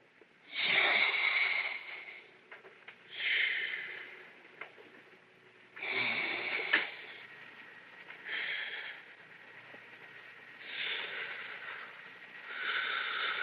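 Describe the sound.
Deep, slow breaths drawn through an ether anaesthesia mask, several faint hissing, wheezy inhalations and exhalations rising and falling in a steady rhythm.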